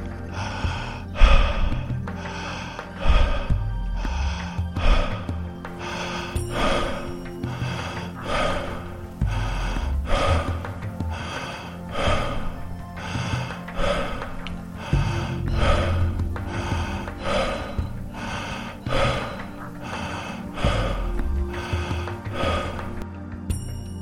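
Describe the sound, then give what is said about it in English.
Breathing in and out through the mouth during a breathing exercise: many forceful, airy breaths repeating in a steady, fairly quick rhythm over soft sustained music. “Continuing to breathe in through the mouth, out through the mouth.”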